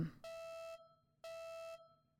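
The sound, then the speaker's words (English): An alarm goes off in a room, sounding two long, steady electronic tones that are bright and evenly pitched. Each lasts about half a second and is separated by a short pause of near silence. “This alarm starts going off in your room.”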